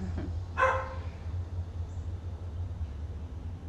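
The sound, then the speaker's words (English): A neighbour's dog gives a short, sharp bark over a faint, steady low rumble, then stays quiet. “The neighbor's dog sees me. He is so cute. I love him.”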